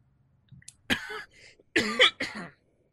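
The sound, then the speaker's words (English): A few harsh, loud coughs from a person, each a short rough burst, with a faint throat sound before them and no talk. “yes, it's that interesting that I cough.”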